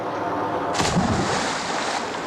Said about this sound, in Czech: To bylo už docela blízko. Buďme vděční za tento výstřel.